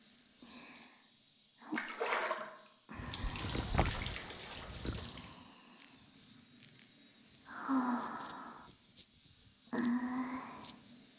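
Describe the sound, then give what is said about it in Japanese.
Hot water runs over hair as fingers work it through, rinsing before shampoo. It makes soft, rushing, splashing bursts, with the longest and loudest in the middle and shorter gushes before and after, separated by quiet gaps. “こうやって髪をお湯で洗うと泡立ちが良くなるんだって。ただ髪を濡らすんじゃなくてちゃんと洗うのが重要。指でしっかり洗って、”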